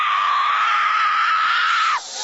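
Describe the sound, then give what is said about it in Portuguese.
Screaming from an audience at a deliverance-style church service. A loud, steady, high held cry lasts about two seconds and then cuts off sharply. “Vocês vão gritando para Jesus queimar ele.”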